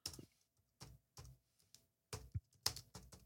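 Quiet computer keyboard typing comes in short bursts of key clicks separated by brief pauses, ending with a few sharper taps.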